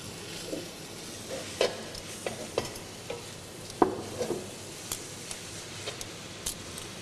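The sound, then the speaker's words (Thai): Bean sprouts and garlic chives are stir-fried for pad thai: a low, steady sizzle carries many scattered scrapes and taps of the utensil against the pan. “ถั่วงอกตัวนี้ให้มันสลดนิดนึงนะครับและตบท้ายด้วยกุช่ายนะครับ”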